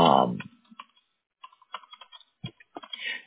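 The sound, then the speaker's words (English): Typing on a computer keyboard follows a brief voice at the start, with many light, irregular keystroke clicks and short pauses between bursts. “Now, I'll see if I can type it so it matches.”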